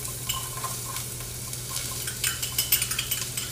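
Sizzle of yellow onion frying in garlic oil, with a steady crackle and many quick stirring and scraping strokes that grow busier and louder toward the end.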